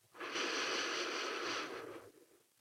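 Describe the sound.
A slow, deliberate inhale during a breathing exercise paced in a 4-8 rhythm: one long, airy, hissing breath drawn in steadily for about two seconds, then tapering off.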